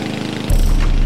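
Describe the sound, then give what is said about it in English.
A lawn mower engine runs with a loud, steady low drone that jumps abruptly louder and fuller about halfway through, then holds even. “Ty stops mowing and watches Ben.”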